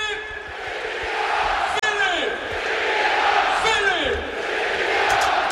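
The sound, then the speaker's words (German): SC Paderborn fans celebrate a goal in a football stadium with a loud, sustained crowd roar. Chanting and shouted voices swell and surge throughout. “1500 weiß gekleidete Gästefans müssen den Torjubel des SC Paderborn ertragen. Und den hören wir uns da jetzt mal an.”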